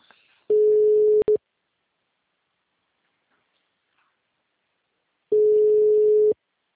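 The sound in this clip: An outgoing telephone call rings back with two steady, single-pitched tone bursts about a second long, the first briefly broken near its end, separated by roughly four seconds of silence.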